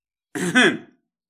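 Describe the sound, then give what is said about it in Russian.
A single short throat clearing, a cough into a fist, lasts about half a second and is heard alone. “Кашлянул я в кулак, прочищая горло.”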